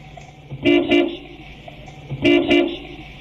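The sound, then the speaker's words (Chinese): A car horn honks twice, captured by a vehicle's dash camera; two loud, separate toots about one and a half seconds apart, each sounding slightly doubled, over a low idling background. “随后呢，我们听到他按了两声喇叭”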